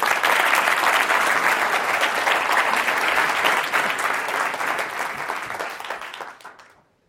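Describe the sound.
An audience applauds to welcome a speaker onto the stage at a talk. The dense clapping stays loud for several seconds, then thins and fades out to silence near the end.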